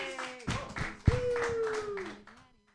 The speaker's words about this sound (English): Put your hands together for your next comedian, everybody.